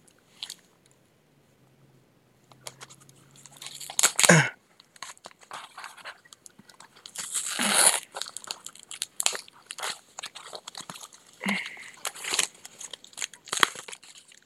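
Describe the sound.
Tape and cardboard crunch and crackle as a taped box holding a bible is opened. Many irregular, crisp bursts of tearing and crinkling follow a quiet low hum at the start.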